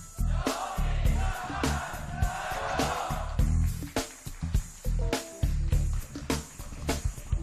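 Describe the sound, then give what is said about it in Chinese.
An audience at a product launch event chants a brand cheer together in unison: a loud, rhythmic run of crowd shouts with strong repeated beats and steady crowd noise underneath. “大家给我们来点背景音好不好？小米枪战加油，可以吗？来， 好吧，小米枪战加油，好吧，一二三。”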